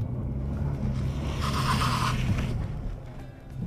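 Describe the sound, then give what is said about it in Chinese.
A front-wheel-drive car engine strains under heavy throttle while trying to climb a slippery, moss-covered slope on damp mountain ground. It is a steady low rumble that swells briefly in the middle, with no voices. “你有没有感觉到我油门踩很多，然后上不来？”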